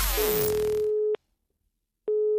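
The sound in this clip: Ringing tone of an outgoing phone call placed as a prank: a steady mid-pitched tone begins under fading music, stops for about a second, then sounds again.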